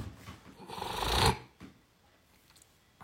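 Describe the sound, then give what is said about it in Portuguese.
A loud, noisy exhalation during zazen meditation: a breathy rush of air that swells over about a second and stops abruptly, then near quiet with faint small rustles. “Se você quiser até soltar fazendo barulho, aproveita que você não está no nosso zendô, no templo presencial. E pode soltar aquele ar com vontade mesmo.”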